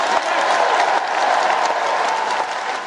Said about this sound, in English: Keir Starmer's big policy announcement, which received a lengthy standing ovation from the audience, was that a Labour government would create Great British Energy, a publicly owned company harnessing the UK's clean green resources.